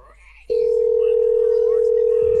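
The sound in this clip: A telephone dial tone comes on abruptly after a short, faintly noisy pause and then holds loud and steady at one constant pitch to the end.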